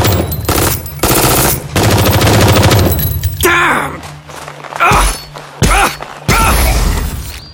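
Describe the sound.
Loud automatic weapons open fire in a battle scene: rapid rattling volleys and heavy gunshot blasts mixed with thuds and mechanical clanks, breaking into several bursts.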